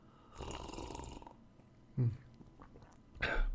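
Sipping from a mug of coffee with cinnamon stirred in: a few faint slurping and swallowing sounds with soft breathy mouth noises.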